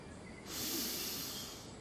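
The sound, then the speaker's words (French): A single slow, airy breath taken during a guided breathing exercise: a soft hiss that swells in after a quiet start and then tapers off gradually, faint and with no voice over it. “Inspirez par le creux des reins. Expirez par le coccyx. Encore une fois.”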